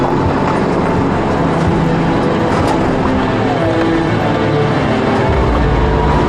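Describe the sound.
An 18-year-old off-road vehicle drives a narrow single-lane road cut along a glacier's moraine. Its engine and road rumble form a loud, steady, unbroken drone throughout.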